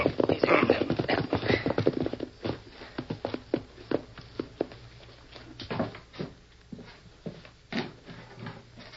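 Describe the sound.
Horses' hooves clip-clop as riders ride toward a house, loud and busy at first, then settling into softer, uneven clopping.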